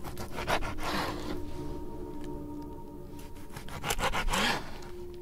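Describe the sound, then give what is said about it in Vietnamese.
A knife blade scrapes across reddened skin in a few rough, rasping strokes, with bursts of scraping that rise and ease off between passes. “dùng lưỡi dao vạt vạt cạo cạo lên lớp da thịt đang đỏ lịm”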